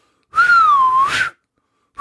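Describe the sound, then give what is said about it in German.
A person whistles with the mouth, imitating a referee's final whistle. One long, loud note dips slightly and climbs at its end, and a second whistle starts just afterward. “Und das Schöne ist ja hier kann ich selbst entscheiden, wann ich abpfeife. Und das mache ich jetzt.”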